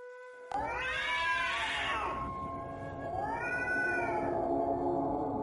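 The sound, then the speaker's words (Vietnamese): A cat yowls mournfully from inside a coffin: two long, drawn-out wails, each rising and then falling in pitch, loud and sustained. “Đúng lúc này, một tiếng mèo kêu thê lương đột nhiên vang lên từ trong quan truyền ra.”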